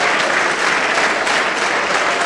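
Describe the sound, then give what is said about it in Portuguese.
A church audience applauds during a service, a loud, dense and steady wash of hand clapping that keeps up evenly from start to finish with no talk over it. “Vamos aplaudir muito enquanto estas pessoas vêm.”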